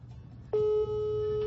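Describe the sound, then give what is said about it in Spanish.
A telephone line rings unanswered, a steady electronic ring tone that starts after a short quiet stretch and holds at one mid pitch to the end, over a faint low hum. “ahí está sonando, pero no nos contesta Frank”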